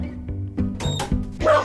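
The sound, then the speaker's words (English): A dog barks at the postman in a few short, sharp bursts with uneven gaps, each loud yelp rising out of a quieter background. “Sorry, that's the dog. I knew that would happen. It's the postman.”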